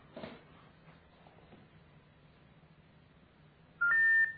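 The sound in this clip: A single loud dual-tone telephone keypad beep sounds near the end, from a number being dialled on a phone that goes unanswered, preceded by faint low hum and soft scattered noises.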